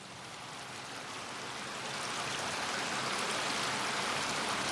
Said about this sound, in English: It's like a river or something or a stream. It's flowing water, but it's not, okay. It's not the ocean.